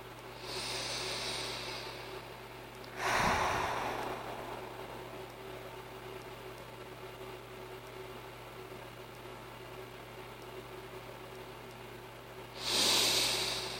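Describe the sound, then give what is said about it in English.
Deep, slow breathing: two clear, hissing breaths separated by a long quiet gap, over a steady low hum. “Deep breathe again. 6 more breaths.”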